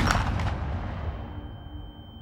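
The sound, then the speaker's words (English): A pistol gunshot: one sharp, loud blast with a deep rumbling tail that fades away over about two seconds. “He steps to his right, aims his pistol again, and fires.”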